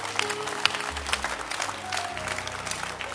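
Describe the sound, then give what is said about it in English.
A church audience claps for its leaders, a lively, even patter of many hands with a few sharper claps, over a low steady hum. “we want to thank God for amazing leaders we have in the church. Clap your hands for them.”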